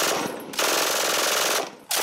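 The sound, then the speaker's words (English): An MG42 machine gun fires as a sound effect in rapid, dense bursts with brief breaks between them. The fire is loud, harsh and crackling, with no voices over it. “I think we can get rid of the MG42.”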